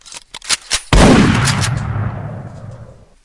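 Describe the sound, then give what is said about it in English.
A double-barrel shotgun fires one loud, sharp blast whose rumble fades slowly over a couple of seconds. A few short clicks come just before the shot. “See, that's a double-barrel shotgun thing, you know?”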